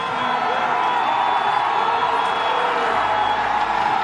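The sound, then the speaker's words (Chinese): Italian spectators at a Winter Olympics ski race finish roar and cheer in a loud, unbroken wash of crowd noise that holds level from start to end. “在我们评论席下方的观众席已经沸腾了，现场全是意大利的观众”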